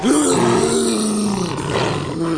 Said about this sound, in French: Un soir, les jaguars policiers voient un inconnu s'introduire dans le zoo fermé. Alors ils rugissent.